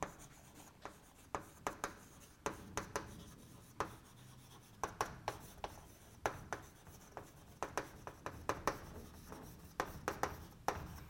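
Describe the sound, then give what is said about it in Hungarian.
Handwriting during a mechanics lecture: many short, scratchy pen strokes in quiet, irregular bursts, with no talking. “Hát ide írom.”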